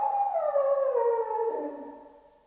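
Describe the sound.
A single long dog howl, a drawn-out wailing tone that slides slowly downward in pitch and fades out at the end.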